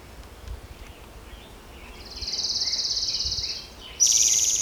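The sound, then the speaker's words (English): An orange-crowned warbler sings a high, thin, steady trill, then a brighter, louder trill at the end, over quiet background hiss. “Orange Crown Warbler also singing.”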